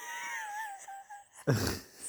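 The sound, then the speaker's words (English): A quiet, suppressed human yawn: a drawn-out voiced tone that slowly falls in pitch, followed by a short breathy burst, all at low volume. “sneaky yawn. But I didn't want to do a really loud yawn”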